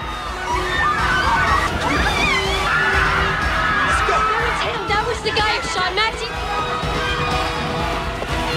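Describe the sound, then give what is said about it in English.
Panicking clubbers racing toward a nightclub exit, a chaotic din of screams, shouts and babbling voices that stays loud throughout, with people talking over the commotion. “He drags her outside as the clubbers panic and race towards the exit.”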